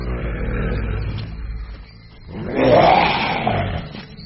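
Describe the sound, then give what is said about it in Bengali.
A lion roars in a jungle: a deep, rumbling growl swells up, eases off, then rises into a louder, sustained roar that holds before fading slightly, with no voices. “স্কেয়ারক্রো এর কথা শেষ হওয়ার আগেই একটা ভয়াবহ গর্জনে জঙ্গল কেঁপে উঠল। তিনজনেই আঁতকে উঠে তিন পা পিছিয়ে গেল, আর পরক্ষণেই এক বিশাল চেহারার সিংহ”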